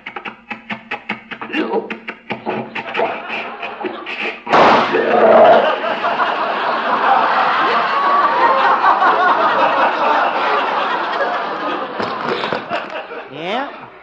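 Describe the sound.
An old tractor engine with yeast-contaminated fuel sputters in quick, uneven putts, then a loud backfiring bang breaks in, followed by sustained audience laughter.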